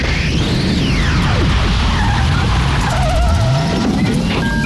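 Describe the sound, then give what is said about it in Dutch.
Sound effect of a time machine starting up, rendered as a loud car skid with squealing tires over a roaring engine, sweeping squeals rising and falling continuously throughout. “Start die tijdmachine, gek!”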